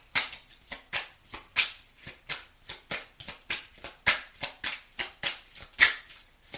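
Tarot cards being shuffled and dealt: a long run of many quick, crisp papery flicks and slaps in a fairly steady rhythm, with no talk.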